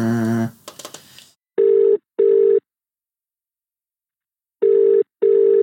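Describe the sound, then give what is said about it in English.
A telephone redials a mobile number. A brief burst of tones and noise is followed by ringing in two double-pulse pairs, each pair made of two steady buzzy beeps with a long silent gap between the pairs. “Dial again. Check the number and redial.”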